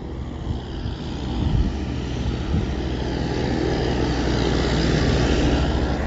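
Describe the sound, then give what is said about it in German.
The neighbours' tractor engine gives off a steady, broad droning rumble that swells slightly in the first seconds and then holds level and loud throughout, with no voices. “Klar, das war der Traktor von unseren Nachbarn.”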